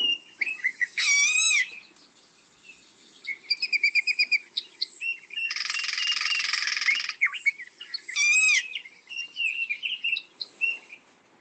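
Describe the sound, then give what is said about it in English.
Golden-tailed woodpecker calls: sharp, repeated whistled notes and chirps, with a harsh, buzzy shriek in the middle. The bird calls alone at moderate loudness, with a faint insect-like hum underneath. “And that is the call of the golden-tailed woodpecker.”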